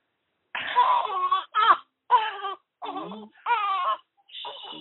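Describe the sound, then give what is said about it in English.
A six-day-old newborn baby waking up and crying, a series of short, high, wavering wails separated by brief pauses, loud and clear with no other voices. “The baby wakes up while we're talking.”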